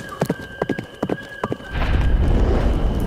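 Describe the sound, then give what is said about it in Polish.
Horses rear and flee in panic on a road: a few quick clopping hoofbeats, then a loud, rumbling rush of noise takes over for the rest. “Konie stają dęba i uciekają w popłochu. Zazwyczaj tratują wszystko i wszystkich.”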